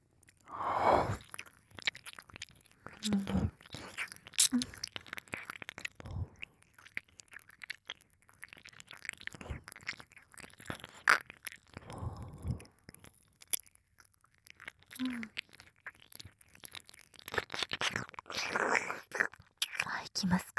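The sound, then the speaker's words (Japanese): Wet ear-licking mouth sounds make many irregular soft smacks, clicks and slurps that come in clusters, with faint whispering between them. “お耳を舐めさせていただきますね”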